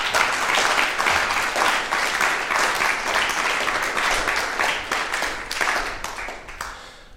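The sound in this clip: Audience applause for music students at a live concert in a music conservatory: dense, continuous clapping from many hands that holds a steady level throughout, then thins out slightly at the end.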